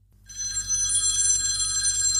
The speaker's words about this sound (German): Wer ist das? Wer ruft da einer an jetzt gerade?